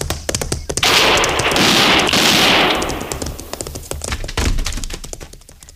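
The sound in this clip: Gunfire in a western drama scene: sharp, loud cracks amid a dense wash of clattering noise, with several smaller knocks and thumps scattered before and after.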